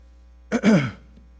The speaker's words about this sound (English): clears his throat.